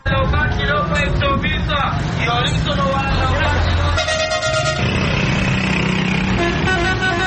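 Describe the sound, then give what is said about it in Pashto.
City street traffic in Peshawar, with car horns honking over and over in bright, tonal blasts above a constant loud drone of engines, busy and dense from start to finish. “په پېښور کې د شهر شور خلک پتنګ کړي.”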